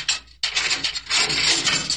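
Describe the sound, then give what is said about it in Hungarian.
A key turns to lock a door, giving a short run of mechanical clicks and ratcheting rattles with a brief pause near the start, with no voices. “Engedélyt szeretnék kérni, báró úr, hogy kulcsra zárhassam az ajtót. Zárja. Bezárom minden esetre.”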